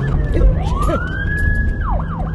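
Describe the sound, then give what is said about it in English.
A speeding police car's siren wails near Golden Gate Park, its pitch sweeping up, holding high, then dropping and yelping, loud over a steady rumble of road traffic. “Near Golden Gate Park, a speeding police car nearly sideswipes us.”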